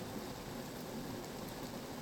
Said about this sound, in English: Come on, take a look out the window. I mean, the rain's kind of beautiful.